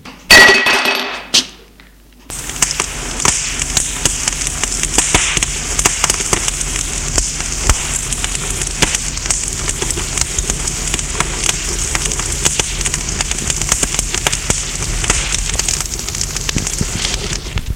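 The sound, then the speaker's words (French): A rug burns after a candlestick is thrown onto it, giving a dense, steady crackle and hiss of fire that runs on without a break, opened by a brief louder burst. “Jette le bougeoir sur le tapis qui prend feu.”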